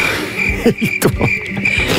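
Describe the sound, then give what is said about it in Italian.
Crickets chirping: a steady high-pitched trill breaks off briefly a couple of times, mixed with a few dry clicks and soft thumps. There is no talking. “Questo è il rumore. I grilli.”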